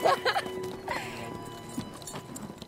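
Horses' hooves clip-clop in a few quick, uneven steps that are loudest at the start and fade to fainter taps over a steady tonal backdrop.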